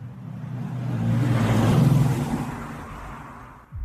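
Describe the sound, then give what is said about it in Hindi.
A car drives through the night streets of Lucknow, its engine hum swelling to a peak midway and then easing off, heard alone. “Lucknow की सड़कों पर एक car रात के सन्नाटे को चीरती हुई आगे बढ़ रही थी।”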